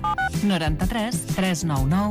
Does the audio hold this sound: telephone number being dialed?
yes